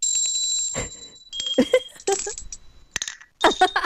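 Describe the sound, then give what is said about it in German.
Small, finely handcrafted bells brought back from a holiday ring in several separate bursts, each a bright, high metallic jingle that decays into short silences between shakes. “Kleine Glöckchen, aber nicht so ein Ramsch, sondern wirklich was Hochwertiges. Also gut kunstwerklich gearbeitet. Und wie klingen die?”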